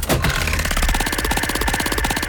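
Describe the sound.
A prize wheel spins in a radio game, giving a loud, rapid, even run of clicking ticks with a steady hum beneath and no voices.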